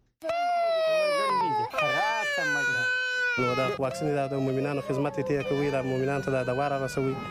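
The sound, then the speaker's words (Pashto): An infant cries loudly and without pause, a high, wavering wail broken by brief sobbing catches. The pitch shifts between sustained strained cries and shorter choppy bursts over several seconds. “عزیز الله پوپل د کندهار نه رپورټ رالېږلی دی چې د یو ماشوم په ژړا پیلېږي”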